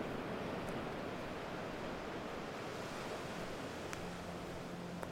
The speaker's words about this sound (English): This is the sound of Jack's Beach, a small, scruffy seaside town in Jacksonville, Florida.